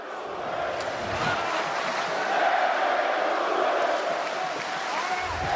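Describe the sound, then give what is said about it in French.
A boxing crowd sings and cheers for its fighter: a steady, loud roar of many voices runs unbroken from start to finish. “Le public qui chante, qui encourage son combattant.”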